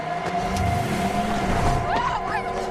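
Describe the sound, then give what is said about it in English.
A car speeding at top speed in pursuit, its engine giving a steady, loud roar throughout, with tonal whines sweeping upward near the end. “Behind the wheel of her car, Jeffrey unleashes a maniacal scream. At top speed, Harper runs through the entrance gates of the house with the car quickly closing distance.”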